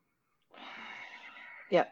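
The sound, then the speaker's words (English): Yoga breath drawn along the back of the throat, a soft, hissing, ocean-like rush that lasts about a second, then ends in a short, sharper burst of breath. “I go into that yoga breath where you take the breath along the back of your throat”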